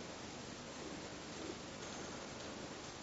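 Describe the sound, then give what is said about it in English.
Rain falling as a faint, even hiss that stays continuous and unchanging throughout, with no distinct drops or other sounds standing out. “it's only the sound of rain. It could explain it scientifically, how the sound is produced.”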